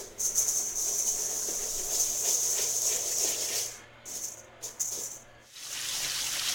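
A mix of mostly jasmine and some basmati rice being washed in water for khichdi: continuous swishing, grainy rattling and watery hiss, broken near the end by a few short pauses before the sound resumes.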